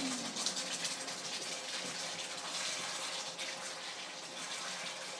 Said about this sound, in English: This cooking makes a lot of noise. Well, I apologize in advance.